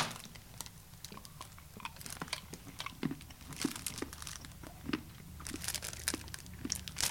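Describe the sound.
Quiet, crunchy chewing and biting on chocolate filled with plums soaked in pălincă, a plum brandy. Many small irregular clicks and crackles come with light crinkling, faint and steady with no talk.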